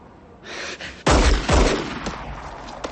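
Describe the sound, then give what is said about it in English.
Two loud gunshots fired at a woman across a street, each a sharp, heavy bang with a rolling decay, the second following about half a second after the first, with softer scuffling before them. “Shot twice in the chest, Maris falls. Jimmy lowers his gun.”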